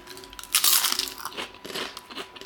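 A crisp crunch as someone bites into a green, fishy, salty snack, followed by a few softer crunching chews that fade toward the end.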